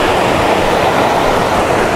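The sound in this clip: Rushing water on a hillside walk: a loud, continuous, hissing wash with no breaks or distinct splashes, alone without voices.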